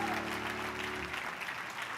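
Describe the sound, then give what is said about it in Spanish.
Applause of thanks from an audience at a religious service: a dense, steady patter of many clapping hands, fairly faint, continuing without pause throughout, with no voices. “Le podemos dar un fuerte aplauso de agradecimiento.”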